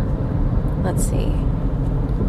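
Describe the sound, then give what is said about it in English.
Steady, loud road rumble from inside a car on a long drive from Tahoe to San Francisco, a continuous low engine and tyre drone with no breaks. “I've been driving for over 3 hours from Tahoe to San Francisco.”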